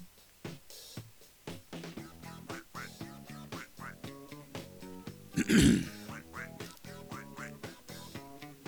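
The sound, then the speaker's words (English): Throat clearing straight into the microphone: one short, harsh, loud burst midway, rising above steady background music. “So, excuse me if I forget to move my mouth away from the mic when clearing my throat.”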